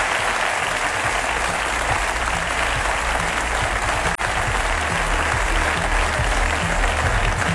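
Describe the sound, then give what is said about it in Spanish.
An audience applauds a technical team. The clapping is dense, sustained and even in loudness from start to finish, with no talk over it. “Me gustaría pediros un aplauso para ellos.”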